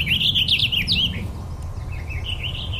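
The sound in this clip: Bubbly, warbly bird song from up in a tree: a quick, high tumbling warble lasting about a second, followed by a fainter trailing warble, over a steady low rumble.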